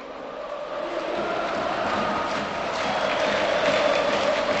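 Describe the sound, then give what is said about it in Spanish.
A crowd fills Carlos Tartiere stadium in Oviedo for an Asturian derby between Real Oviedo and Sporting as fans return to the stands, a continuous loud roar that swells slightly and holds without a break. “Mira, Eri, mira cómo suena el Carlos Tartiere en la vuelta del público otra vez a los estadios en este derbi asturiano.”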